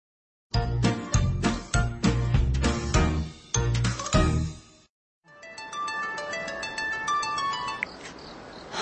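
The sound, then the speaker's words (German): A telephone ringtone sounds as a man calls a woman: a bright electronic jingle of repeating chiming tones, loud and without voices, broken by a short pause midway before the tones resume. “Park Jin-seok ruft die beste Freundin und Kollegin seiner Frau, Sung Mi-jin, an und fragt, was zwischen seinem Schwager und ihr ist.”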